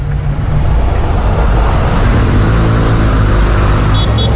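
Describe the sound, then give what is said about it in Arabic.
Loud, steady rumble of cars stuck in a road traffic jam, a dense, continuous engine and road drone without breaks or clear passing vehicles. “في زحمة بالطريق وأنا ما عندي شغل مستعجل”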